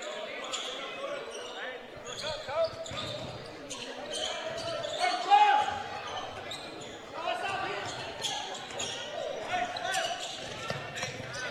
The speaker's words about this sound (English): Reed in the backcourt with a basketball. Guarded by Hall. Right now, a whole lot of dribbling